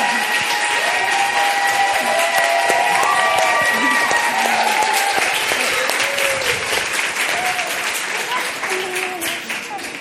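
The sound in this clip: Audience applause welcoming a speaker onto the stage, dense sustained clapping that fills the whole stretch and gradually tapers off toward the end, with voices heard over it.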